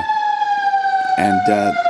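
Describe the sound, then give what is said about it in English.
Fire truck siren sounding as a steady, high, piercing tone that drifts slightly lower, with a brief voice-like burst over it near the end. “The sirens are coming to get me. Sirens are coming to get me because it was that dangerous.”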